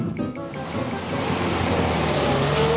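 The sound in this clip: A car arrives with a steady, broad engine and road rumble that swells and holds loud toward the end. No one speaks.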